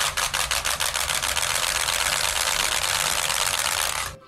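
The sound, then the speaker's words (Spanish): A Dutch ratchet rattle (carraca) bought as merchandise at a Jumbo store is spun. Loud distinct clacks at first quickly merge into a fast, continuous dry rattle that holds steady, then stops abruptly after about four seconds. “Hoy se ha comprado una carraca.”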